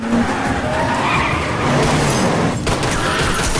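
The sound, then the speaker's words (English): A black car speeds head-on in a car chase, its engine roaring with a harsh, gritty tire skid that fills the whole moment loudly and briefly breaks off near the end. “then is confronted by a black car coming straight towards him.”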